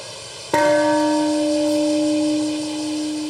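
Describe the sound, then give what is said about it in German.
A peace bell at a memorial ceremony in Hiroshima is struck once and gives a loud, clear strike followed by a long, steady, ringing tone with bright overtones that fades only slowly. “Um 8.15 Uhr, dem Zeitpunkt des Angriffs, wurde die Friedensglocke geläutet und eine Schweigeminute abgehalten.”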